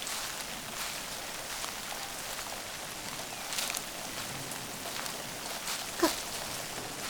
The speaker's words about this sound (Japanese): この辺りの雨は結構長引くんですよ。雨が上がったら元いた場所まで送ってあげますから。